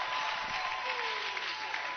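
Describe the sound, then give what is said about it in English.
A church audience claps to welcome their bishop, producing a steady, dense wash of applause with a faint steady tone running beneath it, the clapping continuing evenly throughout. “Let us with a clap offering and a Jesus joy welcome our bishop.”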